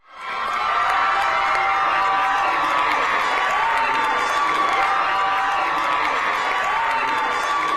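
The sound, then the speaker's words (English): Crowd of Kansans cheering in celebration: a loud, dense roar of voices and shouts that swells in within the first second and then holds steady and unbroken to the end. “That was the sound of Kansans celebrating”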